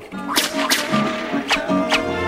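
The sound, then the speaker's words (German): Whip cracks, four sharp snapping swishes at uneven intervals over a steady low tonal hum. “Los, hoch mit der Peitsche!”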